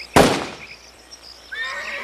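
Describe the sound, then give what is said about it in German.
A Colt revolver fires one sharp, loud shot with a short, fading tail of reverberation, then near silence. “Er zieht seinen Colt und zielt.”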